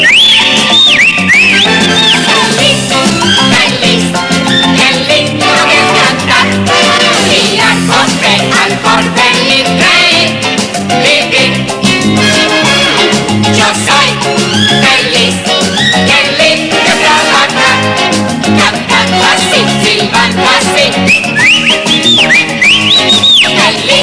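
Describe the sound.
A whistled melody rises above loud, busy musical accompaniment, with clear bright whistled phrases at the start and again near the end, and the backing music playing steadily throughout.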